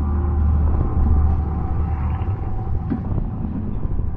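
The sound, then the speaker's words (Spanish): Low, steady engine rumble of a car driving slowly out of a prison at night with its headlights on, a continuous droning hum with faint creaks and no sharp events. “De noche, un vehículo sale del interior de la penitenciaría. El coche avanza despacio con los faros encendidos.”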